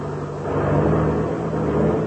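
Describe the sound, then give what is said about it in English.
A small monoplane's engine drones steadily as it taxis across a grass field, a loud, continuous low hum with a steady tonal note and no voices. “Well, we'll turn and taxi over beside it.”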